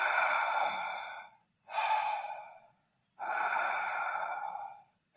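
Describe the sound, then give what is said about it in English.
Open-mouth breathing during a breathing exercise: three long, loud, airy breaths separated by brief silent gaps, with a fourth breath just starting at the end. “So when you are going through a breath journey, what you are, let's say open mouth breathing,”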